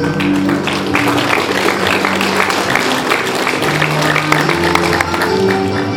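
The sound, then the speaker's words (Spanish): Applause from the audience at a 2014 school graduation ceremony as a student receives a certificate: a dense, steady wash of clapping that holds an even loudness throughout. “Fuerte los aplausos, por favor.”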